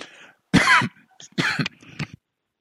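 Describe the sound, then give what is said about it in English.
Coughing after choking: a few harsh, raspy coughs separated by brief silences, the last one shorter and weaker. “Excuse me. Choked myself.”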